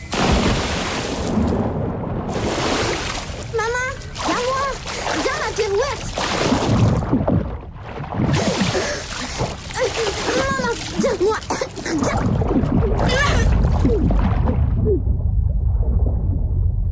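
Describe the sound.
A child's cannonball jump splashes into water with bursts of broad, rushing splash noise. Excited children's voices call out over it, and a steady wash of water noise fills the final seconds.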